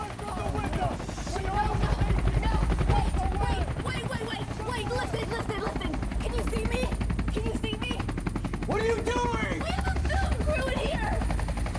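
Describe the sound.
A helicopter's rotor thumps in a rapid, steady chop throughout, heard beneath voices.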